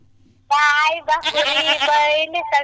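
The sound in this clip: A goat bleats loudly in a few wavering, nasal calls, one long and drawn out, with brief gaps between them.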